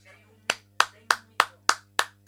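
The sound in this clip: Seven sharp hand claps from a single person, evenly spaced at a brisk, regular beat, each crisp and separate, over a faint low hum.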